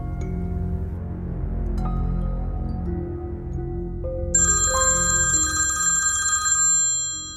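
An electronic telephone ringtone with a bright, repeating tonal pattern. It enters after a low, steady background and rings for about three seconds before cutting off.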